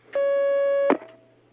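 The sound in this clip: A steady telephone line tone sounds as a listener's call is connected to a call-in religious question program. It holds for under a second, ends in a sharp click, and a faint trace of the tone lingers.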